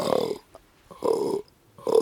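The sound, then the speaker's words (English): Deep, rough belching groans of a male fallow deer buck calling to does in a forest at night, coming in three low guttural bursts with short silences between, the last cut off at the end. “if you hear that sound, that's the sound of a male fallow deer, a fallow buck, setting out his credentials for the does who will hopefully be gathering around.”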